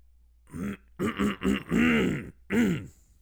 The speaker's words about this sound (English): let me dramatically clear my throat for you.